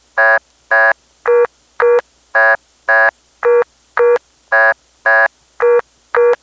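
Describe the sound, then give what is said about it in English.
A vacant code tone on the Centel independent telephone network in Las Vegas: twelve evenly spaced, buzzy, harmonic-rich beeps in a steady rhythm. Their pitch alternates in pairs and repeats loud and clear against silence. “it was the independent phone company called Centel, and they had a very interesting network. Here's the vacant code tone from Las Vegas.”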